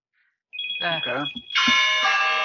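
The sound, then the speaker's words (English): A phone rings with a loud, bright, sustained bell-like tone through the second half, following a short burst of talk that sits over a steady high tone. “Rings across the way. That's my phone. Sorry.”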